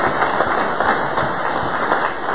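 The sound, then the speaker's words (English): Applause from a church audience, a dense, steady wash of many hands clapping at once that holds at an even level throughout, with no voices standing out. “So let's give them a big round of applause. Let's thank them for what they're doing.”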